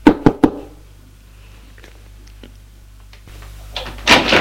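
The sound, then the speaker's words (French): Three sharp, evenly spaced knocks on a door, followed by a long quiet stretch over a faint low hum. A louder, rougher burst of noise comes near the end. “Hésitant, pas de réponse. Frappe encore une fois.”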